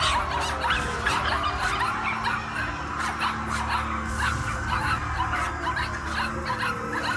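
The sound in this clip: Puppies bark, yip and whimper without pause, with high-pitched overlapping yelps and whines over a dense, noisy bed.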